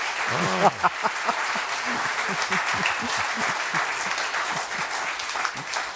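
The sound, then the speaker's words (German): Audience applause follows a discussion of Russian piano schooling. Clapping stays even and sustained throughout, with a voice briefly audible over it near the start. “Meine Damen und Herren, Sie dürfen applaudieren, denn was Sie gehört haben, ist alles richtig.”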